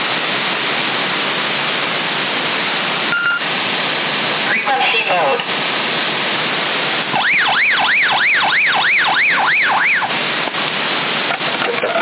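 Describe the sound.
A wailing siren, named as a police siren, comes through CB radio static, probably from a 27 MHz receiver in Sassari. The loud tone sweeps up and down in a steady run of several cycles over constant hiss and brief crackles.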